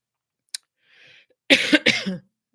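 Two harsh coughs in quick succession, preceded by a faint click and a soft breath, with near silence around them.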